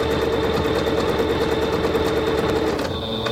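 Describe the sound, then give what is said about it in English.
A sewing machine runs a quick stitch across the top of fabric with a steady, rapid mechanical whir and fast rhythmic hum. The sound holds loud and even, then cuts off near the end. “I'm going to do just a very quick stitch across the top.”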